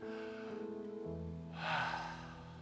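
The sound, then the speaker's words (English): A worship audience takes a deep breath together, a soft, airy swell of breathing that rises midway and fades, set faintly beneath sustained keyboard chords. “I want you, everybody, to take a deep breath.”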